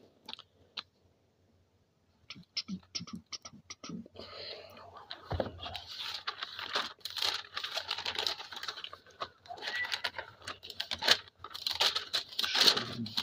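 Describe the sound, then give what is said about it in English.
Soft paper rustling as a Bible is opened and its pages turned: a few isolated taps, then a long, quiet, busy stream of crinkles, flicks and scuffs. “I have to open up the book and read it.”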